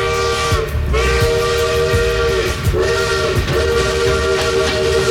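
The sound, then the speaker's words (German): A locomotive whistle sounds over the rolling rumble of a moving train in a radio station jingle. The loud whistle tones sag and recover in pitch a few times while the clattering low rumble runs on continuously beneath. “Unsere Lokomotive, hier ist Radio M1, hieß es damals.”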